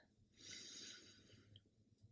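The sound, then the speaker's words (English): A deep inhale through the nose during a closing breathing exercise: one soft, airy breath that swells for about a second, then fades. No voices are heard. “Closing out with a round of breath. Inhale.”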